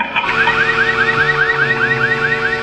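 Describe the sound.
A supposedly spoiled can of peas gives off a strange alarm-like noise when opened. It is a loud, continuous electronic warble made of many rapid, repeating chirps that sweep upward, much like a car alarm.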